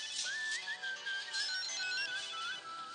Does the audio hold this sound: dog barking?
no